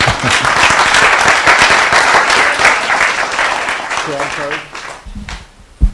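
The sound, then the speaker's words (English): Applause for a woman: a crowd claps loudly and steadily for several seconds, then the clapping thins and a voice begins to speak. “Okay, give her a hand.”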